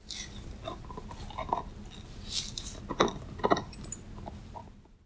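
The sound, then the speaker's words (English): A puppy gnawing a nylon chew bone makes irregular scraping clicks and gritty crunches. The bursts come in uneven clusters, some sharper and louder, over a steady low background hiss. No voices. “It's our puppy chewing on a nylabone.”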